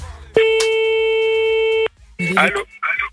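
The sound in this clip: A telephone line rings during an outgoing call: one steady, buzzy ringback tone lasting about a second and a half, then a short pause and brief muffled sounds.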